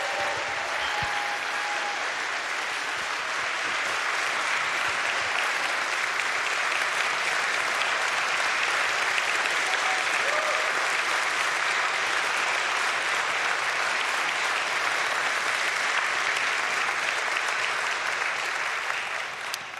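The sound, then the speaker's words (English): An audience at Menlo applauds to welcome a guest, with dense, steady clapping that holds at an even level for about twenty seconds. “So can we give a warm, rousing Menlo welcome to Phil Eubank?”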